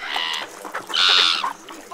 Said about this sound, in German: Schaut mal, jetzt kommen die Möwen angeflogen. Die kreischen ganz schön laut.